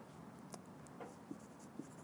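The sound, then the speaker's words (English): Faint scratching of a hand writing a word, with light continuous strokes and a few small taps marking the pen's movements. “I'm just going to write the word inside here.”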